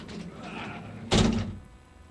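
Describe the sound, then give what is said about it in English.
A large door shuts with a single heavy thud after a stretch of soft rustling and shuffling, the impact ringing out briefly before fading. “Big-ass door. Hey, there he is. I always forget where the big ass door is, but you know what? It's always right there.”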